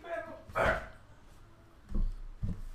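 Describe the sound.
A dog barking in three short, fairly quiet barks, one early and two close together near the end, over low background noise.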